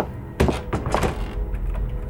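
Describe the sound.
Back door closing as a man leaves: a sharp thump followed by a few rattling knocks, then a low rumble fading out.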